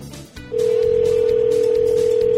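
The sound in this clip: A steady telephone tone sounds as a call is placed, loud and continuous after a brief quieter start, with no voices.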